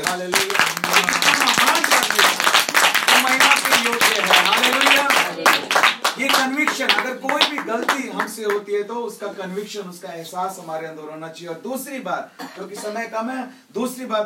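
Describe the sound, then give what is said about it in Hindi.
A church audience claps loudly for God: a dense burst of hand claps for about six seconds with a preacher's voice over it, then the clapping thins out and his speech continues. “यीशु मसीह की ऐसे परमेश्वर के लिए जोर से ताली”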